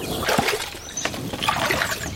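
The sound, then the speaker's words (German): Water sloshes and trickles as someone in rubber boots wades into a mini bog basin housing small frogs. The splashes and drips are irregular and fairly quiet, with no talking. “Meine Moorfröschchen leben inzwischen in einem Mini-Moor. Ein Becken, in dem sie schon im Wasser und an Land leben können. Mit Gummistiefeln klettere ich hinein, um sie einzufangen.”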